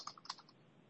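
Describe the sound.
Mouse clicks on a computer link: a few quick, faint clicks close together, followed by quiet.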